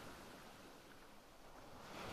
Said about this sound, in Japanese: 波音が思い出させてくれる。